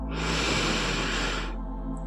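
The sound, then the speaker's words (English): A single deep, slow breath, drawn in during a guided meditation: a steady, airy rush that holds at an even level for about a second and a half, then gives way to near quiet. “And I want you to begin by taking a deep breath in”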